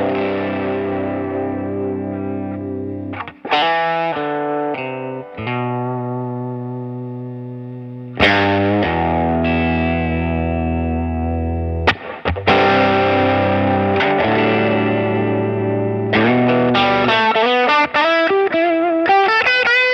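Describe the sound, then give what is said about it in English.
An electric guitar played through effects pedals gives a heavily distorted, sustained tone, ringing chords and single notes with a few brief breaks between phrases, alone and loud throughout. “this one is one of my favorite guitars, actually. I mean, This would be one of the last ones to go if I sold them all. This is a killer.”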